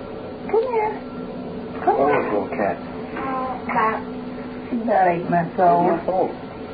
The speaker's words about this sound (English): Oh, little cat. Cat. She's about 8 months old.